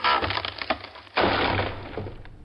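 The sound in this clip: Wooden boxes being forced open: loud cracking, creaking and splintering wood in two long, rough bursts separated by a brief lull, with no voices.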